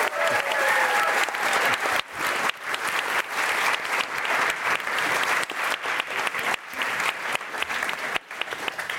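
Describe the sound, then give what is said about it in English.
Audience applause greets a guest at the end of an interview, loud and dense. Many hands clap steadily without a break for the full nine seconds. “All right, let's give it up for Kia. Thanks for doing this.”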